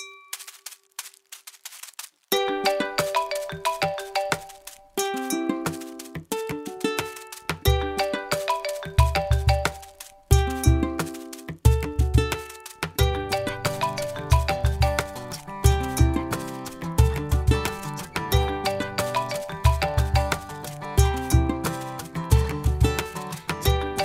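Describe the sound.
Live band remix of the Apple iPhone marimba ringtone: a bright plinking mallet melody opens, then drums and bass join in a loud, steady, repeating rhythmic groove.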